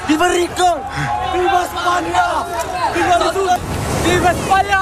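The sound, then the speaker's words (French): A crowd of migrants arriving by sea at Ceuta, crossing from Morocco into Spain, chants and shouts loudly in unison over a constant babble of voices, with surf and wash of water running underneath throughout. “Ce que vous entendez, c'est l'arrivée par la mer de milliers de migrants qui ont franchi la frontière entre le Maroc et l'Espagne, certains à la nage.”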